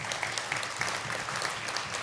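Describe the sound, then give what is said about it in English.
A church audience applauds its pastor: steady, dense clapping from many hands, soft and even throughout, with no talk over it. “So would you just applaud your pastor?”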